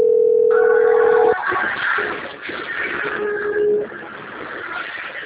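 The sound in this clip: An outgoing telephone call's ringback tone sounds as a steady low tone for over a second, followed by muffled, narrowband line noise.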